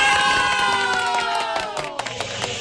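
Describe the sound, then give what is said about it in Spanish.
A recorded crowd cheering and shouting plays as a celebratory bravo sound effect, loud and dense at first, then thinning slightly with scattered bursts of shouts toward the end. “Voy a regalarle un tremendo bravo ahí.”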